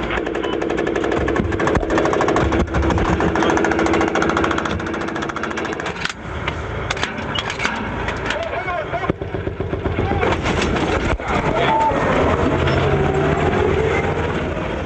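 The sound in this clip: Loud, continuous clattering engine roar and rattling of a Bradley mechanized fighting vehicle traveling with US infantry, a dense grinding din that holds steady throughout.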